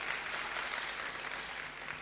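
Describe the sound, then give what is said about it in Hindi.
An audience at an assembly applauds with steady, dense clapping that holds at an even, fairly faint level throughout. “सब लोग इनको देखिए और जोर से जरा ताली बजाइए।”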